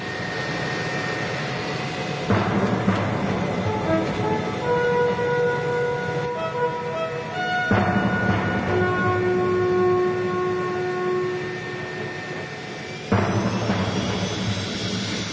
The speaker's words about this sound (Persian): جنگنده ها یکی یکی وارد باند پرواز میشن و اوج میدن.